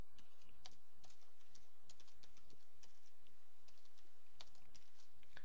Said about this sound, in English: Oops, let me just type that correctly.